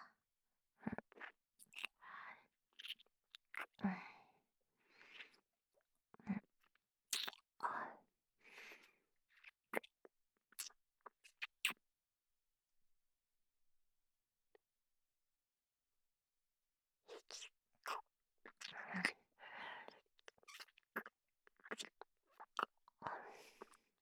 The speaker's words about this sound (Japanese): とりあえずアイスでも食べるか。